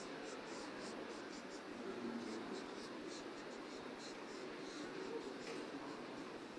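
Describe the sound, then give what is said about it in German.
Scratchy drawing strokes on paper as fringes and stray hairs are sketched along the outline of a head, a steady run of many quick, short strokes, continuous and fairly faint. “Das heißt, ich zeichne anlang der Linie, wo der Kopf, wo die Kopfform ist, zeichne ich Fransen ein oder abstehende Haare.”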